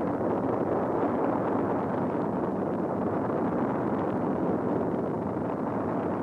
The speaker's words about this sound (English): Then, instantaneously and with awesome force, the quotile exploded.